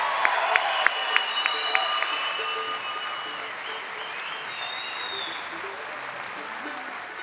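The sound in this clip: Audience applause and cheering at the Ryman after a band's performance: dense, steady clapping with a few sharp claps standing out early, lasting throughout, with crowd voices mixed in.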